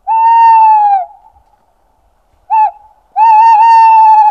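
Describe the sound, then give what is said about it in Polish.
Territorial call of a male tawny owl, played from a device such as an MP3 player: three loud hooting notes, first a long steady hoot, then a brief short hoot after a pause, then a long wavering hoot, with no talk. “To jest głos terytorialny samca puszczyka. To jest głos potencjalnego rywala.”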